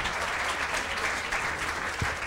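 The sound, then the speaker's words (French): Audience applauding musicians after a performance, dense continuous clapping holding at an even level throughout. “Bon, applaudissez, applaudissez les musiciens.”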